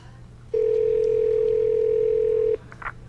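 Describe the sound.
A telephone dial tone sounds while a call is redialed: one steady, mid-pitched continuous tone that starts and stops abruptly and holds for about two seconds, followed by a faint short blip.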